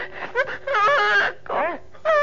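A young girl crying, with several bursts of high, wavering whimpers and wails that rise and fall in pitch, broken by short pauses.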